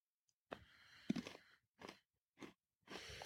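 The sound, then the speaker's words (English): Crunching bite into a cracker topped with a generous amount of cheese. A longer crisp burst is followed by a few shorter crunching chews, set against near silence. “This is a good amount of cheese to put on here. All right, I'm going to take a bite here.”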